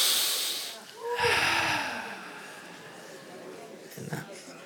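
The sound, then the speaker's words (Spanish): Forceful breathing through the nose by people at a religious gathering: a few strong, noisy snorting breaths with a breathy hiss, the loudest coming after the first second and another near the end. “Diga, hay que respirarlo. Respíralo, a ver cómo respira.”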